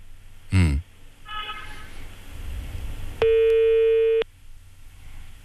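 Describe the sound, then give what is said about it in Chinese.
A telephone line tone sounds once as a steady, mid-pitched electronic beep about a second long when a call reaches a busy number, preceded by a short thump and faint background noise. “您好，您拨打的电话正在通话中，请稍后再拨。 The number you have dialed is busy.”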